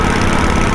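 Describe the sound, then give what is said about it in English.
Motorbike engine noise captured by a microphone mounted on the side of the bike in a 110 km/h motorway section: a loud, constant rumbling roar with no breaks over a short moment. “we put the 2CH microphone on the side of a motorbike in the 110 section of the M4.”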